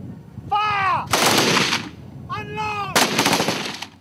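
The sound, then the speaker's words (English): Gunfire from African Union soldiers firing practice rounds on shore: two loud bursts of rapid, noisy shots, each lasting under a second, over steady background noise. “On shore, African Union soldiers fire practice rounds.”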